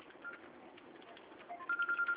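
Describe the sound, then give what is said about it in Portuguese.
A mobile phone rings with an incoming call: a quiet, muffled background gives way to a rapid, evenly spaced series of short mid-pitched electronic beeps near the end. “Eu tenho uma chamada aqui, deixa eu ver quem que é.”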